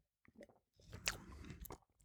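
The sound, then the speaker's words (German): A sip is taken from a spiced alcoholic drink: a few soft mouth clicks, then a longer wet slurp and swallow, all quiet and close, with no voices. “Und ja, also jetzt nehme ich mal einen Schluck.”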